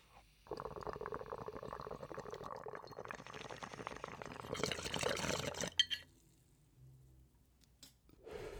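Water bubbling in a glass bong as it is hit, a steady gurgling rush lasting about five seconds before it stops abruptly, followed by quieter faint sounds.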